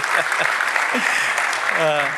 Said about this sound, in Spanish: Le damos un aplauso a Dios por la vida de ellos.